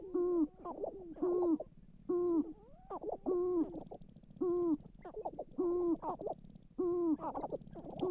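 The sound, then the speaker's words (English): Sharp-tailed grouse calling with many low, hollow hooting coos. The coos repeat in a steady, regular pattern, and other calls overlap between them. “That's the song of the sharp-tailed grouse.”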